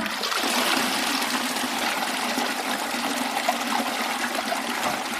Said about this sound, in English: So Harrington's toilet was just a nice little flush that came from a tank of water above the toilet. It would wash everything away